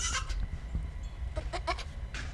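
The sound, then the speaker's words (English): Two tiny young goats bleat while hopping around a backyard, giving a few short, quavering bleats in a quick cluster, plus one earlier, over faint steady background noise. “Today, in the backyard, two tiny goats are hopping around.”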